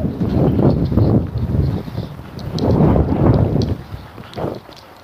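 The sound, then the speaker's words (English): Cold wind buffets an outdoor microphone in rolling, gusty surges, a low rumbling roar that swells and fades over several seconds with no talking. “Kind of cuts off the wind rolling down my neck a little bit.”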